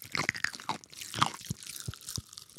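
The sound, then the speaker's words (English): Crunching and crackling of Kool-Aid flavored sour candy being chewed: a run of sharp, dry crackles and crunches in irregular bursts, fairly quiet, with no talking. “we will be Kool-Aid crackling in your ears.”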